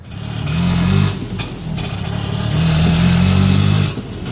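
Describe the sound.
An auto rickshaw engine on the road in Chandigarh makes a loud, mid-pitched sputtering drone that swells twice, near the first second and again around three to four seconds, with no voices.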